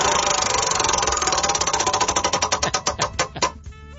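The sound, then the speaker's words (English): A spinning prize wheel clicks rapidly at first, then its ticks grow louder and more widely spaced as it slows to a stop within about three and a half seconds. “Spin that wheel.”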